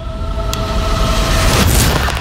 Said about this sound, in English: then there was this explosion that rocked us out of our table